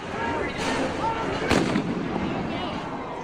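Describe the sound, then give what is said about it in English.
Rioters throw massive fireworks into a dumpster burning in the middle of a street; two sharp booms ring out, the second louder, over a continuous roar of crowd noise. “Dumpster on fire in the middle of the street, about 1,000 mostly black clad rioters there. They were throwing massive fireworks into the center of it”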